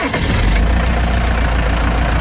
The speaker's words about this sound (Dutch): We gaan even de motoren starten hier.